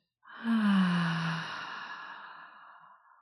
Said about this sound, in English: Take a slow, deep breath in. And an even slower exhale out.